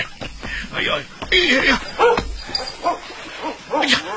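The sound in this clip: Dog barking and yipping in many quick, sharp bursts, irregular in rhythm and moderately loud, mixed with a person talking.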